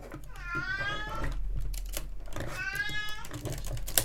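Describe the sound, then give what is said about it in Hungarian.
A fussy, cranky old cat meows twice, each cry a long, drawn-out, wavering call, over a low steady hum with light clicking between the cries. “Senkit ne tévesszen meg a cicának a nyávogása, nincsen semmi baja a cicának, csak nyűgös.”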